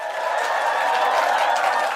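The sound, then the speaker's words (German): A studio audience applauds and cheers during a quiz segment of a children's show, a continuous bright wash of clapping and voices at a steady level. “Applaus!”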